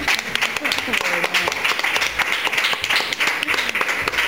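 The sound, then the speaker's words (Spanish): Audience applause greets a guest introduced at a live event: a dense, fairly loud patter of many hands clapping throughout, with talk mixed in. “Pido un aplauso en principio. Ahí va.”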